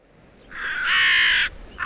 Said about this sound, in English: I look after Her Majesty's ravens.